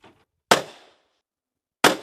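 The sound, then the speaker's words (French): Rifle shots at a shooting range during a timed firing series: two sharp, loud cracks with short decaying tails, more than a second apart, after a faint brief sound at the start. “Pour la dernière série de 6 coups en 1 minute, tireur prêt, feu.”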